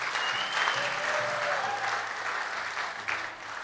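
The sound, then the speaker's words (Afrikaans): An audience gives warm applause as children hand a rose to each of the women at a community gathering: a dense, even wash of clapping that fades slightly toward the end, with faint voices in the background. “So kom ons gee vir hulle lekker handeklap as vir elkeen van hulle roos bring.”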